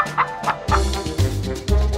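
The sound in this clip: Hen clucking in a fairy tale about a gingerbread man: a few short, throaty clucks come in separate bursts with brief pauses between them.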